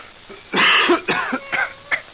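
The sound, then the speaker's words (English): Someone coughs: one loud, harsh, rasping cough, then a few shorter, weaker coughs in quick succession, alone. “It was a cough.”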